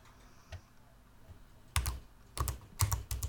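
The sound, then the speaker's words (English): Typing on a computer keyboard: a faint tap, then a few short bursts of clicking keystrokes after a pause, coming quicker toward the end with quiet gaps between. “Let me look. Listen to me type.”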